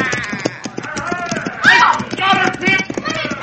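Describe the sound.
Horse hooves gallop in a fast, steady clatter throughout, with a man's voice shouting over the rhythmic beats.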